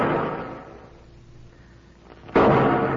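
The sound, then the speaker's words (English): Rifle shots spaced out as a signal for help: two loud, booming reports about two seconds apart, the first fading slowly before the second strikes sharply and rings on. “the way he's spacing them shots... Yeah, that's the signal for help”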